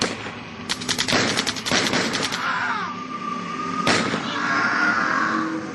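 Gunfire fills a radio drama skirmish among soldiers. A rapid burst of many shots crackles over the first couple of seconds, and one more sharp shot cracks later over a constant, noisy battle din.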